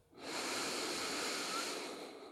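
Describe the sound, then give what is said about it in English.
A deep breath in during a guided relaxation: a soft, steady, airy inhalation lasting about two seconds, easing off slightly at the end. “And we take that deep breath in.”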